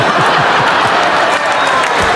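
Audience clapping and cheering at a live comedy show, a dense, steady wash of hand claps that holds at a constant loudness with no break for its whole length.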